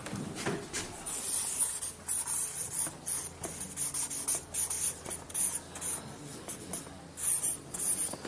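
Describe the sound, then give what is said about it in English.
A pen handwrites the name of a tower on paper, making many scratchy strokes in short, irregular bursts. “I know my writing's not good, but you can make out I've just written the name of the tower.”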